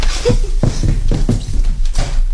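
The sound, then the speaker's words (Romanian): Knocking on a door in a radio play: several sharp, separate raps spread over about two seconds, sounding alone above a steady background hiss. “Oh, iar e cineva la ușă. Mai bine ar fi lăsat-o deschisă.”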